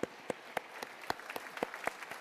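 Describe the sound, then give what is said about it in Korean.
Faint rhythmic clapping during a church service, an evenly spaced beat of sharp claps with softer claps falling between them. “우리 하나님의 영광의 박수 올리겠습니다.”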